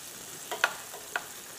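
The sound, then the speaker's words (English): Peppers and onions fry in a pan, giving a faint, even sizzle broken by a few small crackling pops. “The onions are cooking too, which is good too. So they'll come down.”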